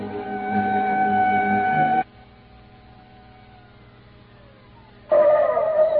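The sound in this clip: A car engine drones loudly as it is driven off in a hurry to reach a crime scene. The steady roar lasts about two seconds, falls to a low hum with a faint falling tone, then surges loud again at the end.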